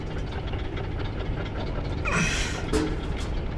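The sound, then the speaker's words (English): Elevator running in its shaft: a steady mechanical rumble with a knocking, grinding texture that holds throughout and swells briefly with a brighter scraping burst in the second half. “Why'd you turn on the elevator? I didn't. Then who? Whoever closed the door to the shaft.”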